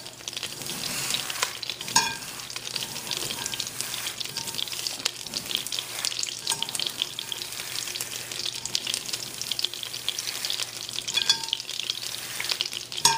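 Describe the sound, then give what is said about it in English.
Ingredients crushed in a pan before being roasted in butter: continuous faint crackling, scraping and stirring, broken by a few sharper knocks. “I'm just going to get in there, and I'm going to make sure that we're going to crush this up as much as we can.”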